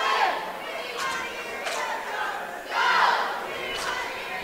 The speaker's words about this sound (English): That noise you hear is the Galesburg-Augusta cheer team. We mentioned it to you that they bring your cheer team wherever they go.